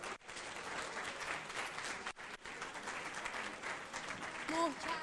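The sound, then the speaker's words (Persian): Audience applause fills the whole clip as dense, continuous clapping, with a brief voice rising over it near the end. “یه دست به افتخار زهره بزنی.”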